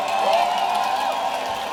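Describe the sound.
Concert crowd cheering in Madrid: a loud, sustained roar of many voices with scattered whoops and some clapping, steady throughout.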